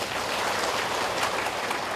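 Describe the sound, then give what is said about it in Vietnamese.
Audience applause at a Buddhist dharma talk, given for a 55-year-old woman attendee: a dense, even patter of many hands clapping at a moderate level through the whole stretch. “55 tuổi, xin cho một tràng pháo tay.”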